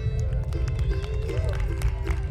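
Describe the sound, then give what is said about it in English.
Wind blowing across the microphone outdoors, just before a song is performed: a loud, continuous low rumble with steady buffeting and faint tonal sounds above it. “I think the wind's louder than the music.”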